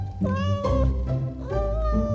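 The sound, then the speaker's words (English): A plump pet cat meows several times in quick succession, each call clear and fairly loud, with a rising then falling whine and no talk over it. “Wow! It's a fat cat. That's right. This is your pet.”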